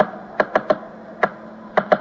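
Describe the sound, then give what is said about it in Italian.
Typewriter keys strike in six sharp, crisp clacks, grouped in small uneven bursts with brief pauses between them, heard alone against a faint hiss. “E la docile, serena macchina da scrivere.”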